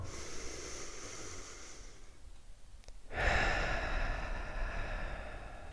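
A person breathes out in one long, soft exhale, a breathy rush of air that rises out of quiet background hiss partway through and then tapers gently.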